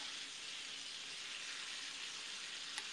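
Steady, faint sizzling hiss of broccoli grilling, an even crackle-free wash of noise that holds constant throughout with no talk over it.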